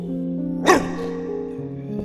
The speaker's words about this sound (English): You're a dog, right?